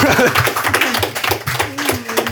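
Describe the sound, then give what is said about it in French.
Hands clap briskly in applause for the winning team of a game show. The claps are quick and uneven, and a voice is heard briefly underneath. “Eh bien, c'est l'équipe Jimouette qui gagne. On peut les applaudir. Bravo.”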